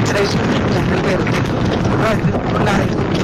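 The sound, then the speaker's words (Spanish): Strong wind blasting into a phone caller's microphone, a loud, steady roaring rumble of buffeting noise that fills the whole clip without letting up. “no te escuché. Qué ventarrón. Sí, va como en moto o, tiene, o va en carro, pero con la ventana abierta.”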